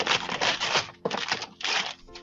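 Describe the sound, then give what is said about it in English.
Wrapping paper ripped open on a Christmas present, a few rough, crackling tearing bursts with brief pauses between them. “I'll just rip it open. I don't care about the mess.”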